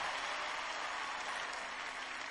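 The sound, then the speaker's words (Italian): Applause rings out from an audience, a dense, even patter of many hands clapping at a steady, moderately faint level without talk over it. “fategli un applauso”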